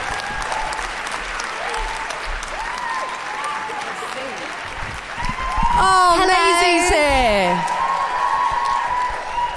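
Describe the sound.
Applause from a studio audience settling in before a chat show, a steady dense wash of clapping that swells louder in the second half, with voices and a few whoops rising above it.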